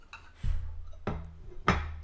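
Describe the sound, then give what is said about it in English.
Porcelain clinks as a teacup of tea is flipped upside down onto its saucer, giving three distinct knocks, each with a brief ringing tail, at moderate volume and without talk. “You want to take your cup, give it a nice hearty like three swirls, and then you put the saucer on top, and then just flip it.”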